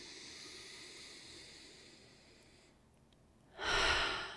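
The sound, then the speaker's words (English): A deep breath: a faint, steady hiss gives way near the end to a loud, full, breathy rush of air. “I just want to take a deep breath with that for a moment.”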